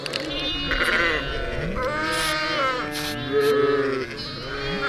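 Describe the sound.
A lamb bleats while a blue wound spray is applied, giving repeated high, wavering cries of varying length with little pause between them.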